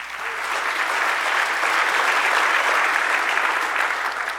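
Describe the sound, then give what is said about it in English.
A church audience claps their hands, a steady, dense wash of applause that stays even from start to finish. “If you love the Lord, let me hear your hands this morning.”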